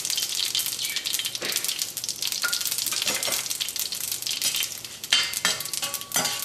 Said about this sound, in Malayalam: ഉണക്കമുളകിനെ നമുക്ക് എണ്ണയിൽ ഇട്ടിട്ട് പതുക്കെ ഒന്ന് വറക്കാം